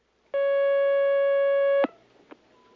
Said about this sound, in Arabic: معنا مكالمة، تفضل.